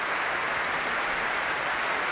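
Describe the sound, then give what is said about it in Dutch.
An audience applauds a baroque vocal ensemble after an encore at a concert. The clapping is dense and steady, a uniform wash of many hands that holds at an even loudness throughout, with no voices. “Opnieuw groot applaus voor dit muziekgezelschap.”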